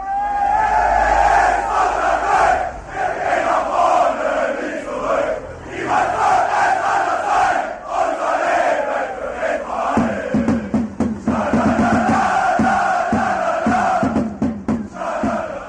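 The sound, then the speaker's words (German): Football fans chant together at a home match of the Erfurt club in its stadium. The crowd's singing is loud and continuous, and regular rhythmic beats join in during the second half. “so klingt das, wenn die Fans, die Leute, die da den Fußballclub Rot-Weiß Erfurt eher zugeneigt sind, wenn die denn hier im Steigerwaldstadion sind”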